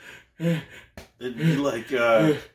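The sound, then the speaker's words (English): A voice imitating exhausted fighters gasping for breath: a few strained, voiced gasps in quick succession separated by brief pauses. “It'd be like two fucking whales in a little, out of water. Two whales in the Marineland tank, and we're just be like, are they fighting? It's like, no, they're tired. They're trying to breathe.”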